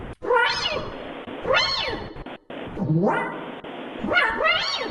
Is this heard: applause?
no